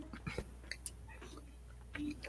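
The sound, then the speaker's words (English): Close-up ASMR chewing of a Snickers bar: soft, faint mouth clicks and small sticky crunches arrive in a few irregular bursts over a low steady hum. “Loud and Proud brings you ASMR. Eating Snickers.”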